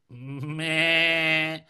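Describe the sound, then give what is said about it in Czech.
A goat bleats once in a long, sustained, tonal cry lasting about one and a half seconds. It is fairly loud and holds a steady pitch, with a brief catch early on. “To je koza”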